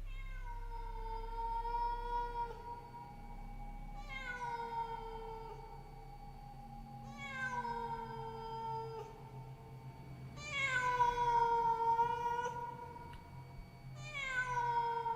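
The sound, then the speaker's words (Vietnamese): A black cat on top of a wall meows mournfully, giving five drawn-out cries in a slow, evenly spaced series, each call starting high and sliding down in pitch, the last one cut short. “Ở bên ngoài, bỗng đâu xuất hiện một con mèo đen. Nó đứng ở trên bờ tường. Ánh mắt của nó xanh lè lè nhìn vào bên trong. Thỉnh thoảng, nó cứ đi qua đi lại rồi kêu lên những tiếng thê thiết.”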